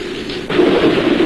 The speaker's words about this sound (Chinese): 哟，打雷了。